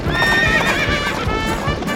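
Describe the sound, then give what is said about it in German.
A pony gallops with quick, loud clip-clop hoofbeats in a steady rhythm. A whinny rings out over the hooves through most of the passage. “Und das Pony hinter dem Lebkuchenmann her.”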